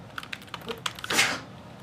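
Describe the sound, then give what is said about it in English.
Computer keyboard typing while code is entered into a database: a quick run of light, irregular key clicks, then a louder, broader burst near the end, with no voices. “I'm actually just gonna live type it because it slows me down a little bit.”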